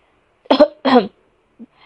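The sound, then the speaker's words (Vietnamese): A short cough, two quick rough bursts close together followed by a faint trailing catch, with no speech around it. “ho khan một chút”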